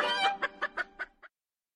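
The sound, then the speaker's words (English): Chickens cluck: one drawn-out call is followed by five short, evenly spaced clucks that grow fainter, then silence. “So what about Plura and his chickens?”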